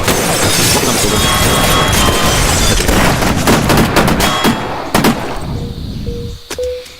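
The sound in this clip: A bullet bomb explodes in a battlefield video game: a loud, dense roar of crackling, shattering bursts that holds for several seconds, then thins out, with a few sharp hits and a brief tone near the end.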